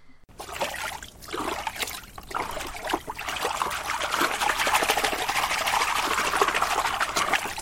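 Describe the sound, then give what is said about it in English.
Water sloshes and trickles inside a washing machine with its lid open, clothes swirling through it. The churning is steady and continuous, growing fuller and louder after the first couple of seconds. “lid is open, the clothes are swirling around inside, and they look to be, well, looks to me like she probably didn't put in enough soap.”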